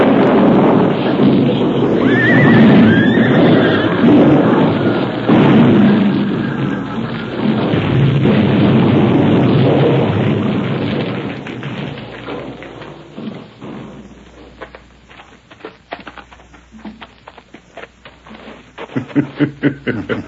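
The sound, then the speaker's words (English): An explosion blast seals a cave's entrance tunnel in a Western setting: a loud, sustained rumbling roar that lasts several seconds, then thins out into scattered thumps and knocks. “That blast let go just when they was riding in”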